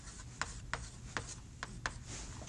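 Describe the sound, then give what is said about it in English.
Algebra being written out by hand, five short scratchy strokes at an uneven pace, faint and alone. “So let's write. I'm going to write this out.”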